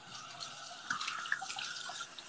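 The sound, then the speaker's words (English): Water running from a tap while hands are washed under it: a faint, steady hiss of flowing water with a few small splashes and drips. “No, I'm actually washing my hands.”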